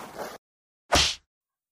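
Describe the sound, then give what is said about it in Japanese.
A hard slap across the face lands as one sharp, bright smack, brief and loud, with silence after it. “もっと強めにビンタするにゃん。”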